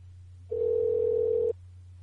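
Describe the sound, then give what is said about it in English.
Steady telephone dial tone while dialing in to a broadcast line: a single continuous mid-pitched tone lasting about a second, clear and alone over a low background hum. “Bear with me while I dial in.”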